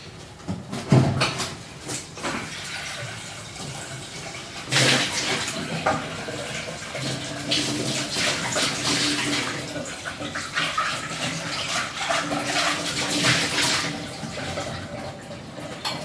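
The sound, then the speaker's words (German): Tap water rushes and splashes as a cooking pot is rinsed out before being used for risotto, a steady, noisy stream that lasts throughout, with a few sharper splashes or knocks and no talking. “wasche mal kurz den Topf aus, den brauche ich gleich fürs Risotto.”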